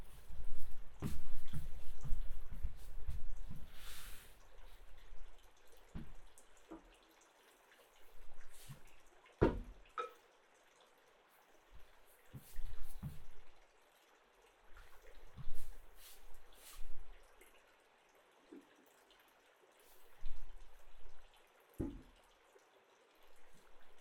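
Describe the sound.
Water drips and splashes into hot water set out for nail care. A dense run of small trickling splashes comes first, then many scattered drips and soft plops with quiet gaps between them.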